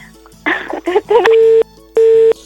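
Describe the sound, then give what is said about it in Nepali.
A busy tone comes on after a phone call is cut off. A short burst of garbled voice over the line gives way to two long, steady, loud beeps of the same pitch, separated by a brief gap. “तर पनि उहाँको phone लास्टमा कट्यो.”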